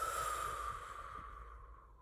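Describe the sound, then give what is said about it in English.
A slow, deep breath taken during a guided breathing exercise: one long, airy exhale that starts fairly loud and fades away over about two seconds. “please take two long breaths with me. Breathing in as my hands go up and as my hands go down.”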